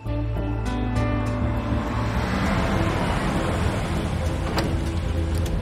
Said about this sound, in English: The Martha's Vineyard ferry terminal. Lloyd carries a duffel bag toward it. Jeff and Z pull up in his car.